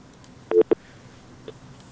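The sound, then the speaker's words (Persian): Telephone disconnect tones as a caller is cut off during a phone-in: a quick cluster of short electronic beeps, then one fainter beep, over a quiet background. “بله خب تماسشان قطع شد.”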